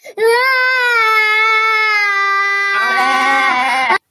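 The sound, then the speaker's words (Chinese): A little girl cries loudly after her bite of food is eaten, letting out one long, high, sustained wail that holds a steady pitch and then turns hoarse and broken near the end. “就吃一口，结果一大口都吃没了，对吧？那小女孩当然会哭了”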